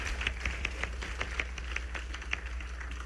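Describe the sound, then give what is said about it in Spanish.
Quiet applause for the double bass players, a series of distinct, fairly regular claps over a low steady hum. “Fuerte aplauso a nuestros contrabajos que son marajás.”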